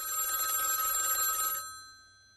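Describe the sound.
Telephone ringing for an incoming call: a single bright, sustained electronic ring lasting about a second and a half, steady and fairly loud, then cutting off and fading away.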